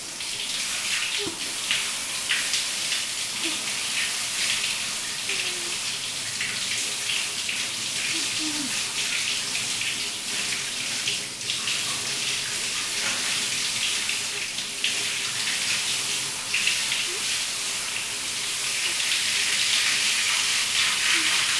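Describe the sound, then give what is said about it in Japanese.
Hot water pours over a person to rinse them off, a steady rushing, splashing flow that stays loud and even for the whole stretch without pause. “それじゃあそろそろ流すね。あまり長い時間放っておくと痒くなっちゃうから。お兄ちゃん、お湯かけるね”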